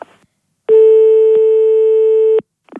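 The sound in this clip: A telephone tone sounds after a phone is hung up: one steady, continuous electronic tone lasting just under two seconds, loud and unbroken, with only brief faint noises before and after.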